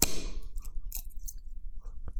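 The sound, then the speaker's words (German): A bottle of Pilsner Urquell beer is opened with a sharp metallic clink that rings briefly and fades, followed by a few faint clicks and rustles. “Du machst dir jetzt wieder die richtig guten Sachen auf. Pilsner Urquell.”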